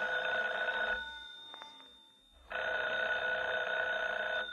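A telephone bell rings in two long, steady bursts separated by a pause of over a second, fairly loud, with no one speaking.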